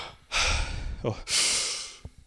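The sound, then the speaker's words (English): Loud mouth breaths drawn up into the chest, demonstrating a dysfunctional breather's deep breath: two harsh, airy inhalations in quick succession, each lasting most of a second. “what I'm doing is I'm taking a mouth breath into my chest”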